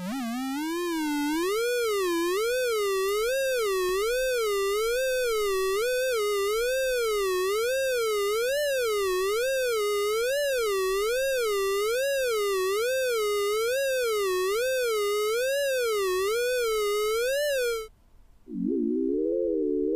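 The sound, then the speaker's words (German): Sonification tones turn front crawl swimming data into sound using a softer, less shrill variant. A smooth continuous tone wobbles up and down in pitch in a steady, rapid rhythm for about eighteen seconds, then a brief fragment follows after a pause. “das Kraulschwimmen vertont mit der etwas sanfteren Variante, wo die Töne nicht ganz so schrill sind”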